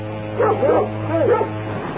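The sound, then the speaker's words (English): A dog barks, giving a few short, tonal yips and woofs in two quick bursts, fairly loud and heard through a narrow, phone-like sound. “Sorry, my dog got here somehow.”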